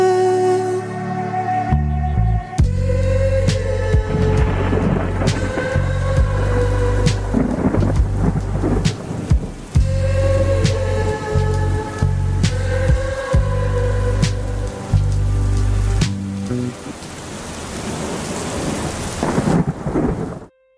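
Rain and thunder layered over music: a steady hiss of rainfall with low rolling rumbles runs under the instruments throughout, and near the end the music drops away, leaving the rain sounding alone before a sudden cutoff.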